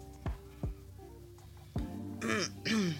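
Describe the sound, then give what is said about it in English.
A woman clears her throat, faintly and quietly: a few short, rough bursts build into a longer raspy, gravelly rasp at the end. “Yeah, she cleared her throat for that.”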